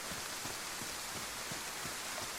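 Heavy pouring rain: a steady, even, hissing wash with no breaks, fairly faint overall.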